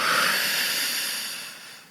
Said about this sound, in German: Wir atmen ein und wir atmen aus.